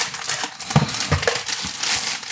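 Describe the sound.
Crinkly plastic rustling as packets of pudding powder are pressed out during baking, a few crackly bursts in a steady, moderately loud run with no voices.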